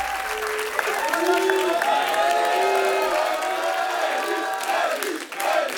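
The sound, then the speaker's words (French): Concert audience applause greets a drummer arriving on stage, a dense, steady clapping wash mixed with cheers and high whoops that holds throughout before dipping briefly near the end. “Et oui, c'est l'arrivée du batteur qui est salué par le public.”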